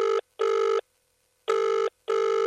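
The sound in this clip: Ringback tone of an outgoing telephone call: four loud, steady electronic buzzing rings in a paired pattern, two close bursts, a pause, then two more, held at one mid pitch with no voices.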